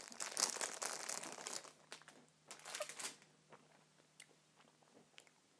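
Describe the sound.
Chewing on a foamy, jelly-centred, artificially flavoured sweet: soft, moist crinkling and squelching bites in many irregular small bursts, busier at first, then sparser and faint.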